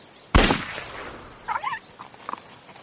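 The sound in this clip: A single sharp, loud gunshot aimed at a small terrier on a track in a drama, followed by a few brief high whining cries.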